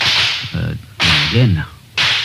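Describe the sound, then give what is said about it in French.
A sabre is drawn, swung and slid back into its sheath, heard as three loud, sharp whip-like swishes with brief gaps between them. “qui arrivent à tirer le sabre, remuer, et puis remettre.”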